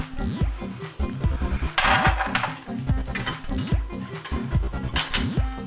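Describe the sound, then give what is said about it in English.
A heavy cooking pot is set on a stove to heat for sautéing onions and meat. There are a few hard knocks and clattering thuds, with busier handling noise in between. “First thing is to take my heavy pot and put on medium high so that I can saute my onions and the meat.”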